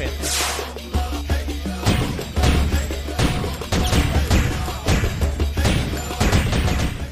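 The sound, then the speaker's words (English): Many crashing, thudding impacts sound as torches are thrown from tiki idols in a video game. The hits come in quick irregular clusters over a steady low drone. “I have a clip of that, which actually is torches being thrown from tiki idols while he's tied to a stake.”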